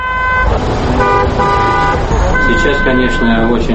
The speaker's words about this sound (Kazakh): Ширақ жүрісті трамвай таңғы сағат 8-де Алматының орталық көшелерінің біріндегі кептеліске тап болды.